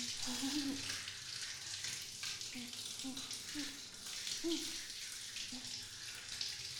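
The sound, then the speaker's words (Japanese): Running water as someone is washed by another person, a faint, continuous splashing hiss with soft low voice sounds here and there. “やっぱり誰かに洗ってもらうのっていいよね。”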